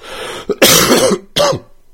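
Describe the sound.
Loud, rough coughing from a person recovering from the flu: a small hack, then a long harsh throaty cough, then a shorter, sharper cough after a brief pause, each sounding raspy and chesty. No talk between them.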